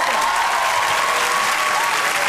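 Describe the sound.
Audience applause at a stand-up comedy show, greeting a birthday guest in the crowd: dense, steady clapping that runs loud and unbroken for the whole moment, with no talk over it.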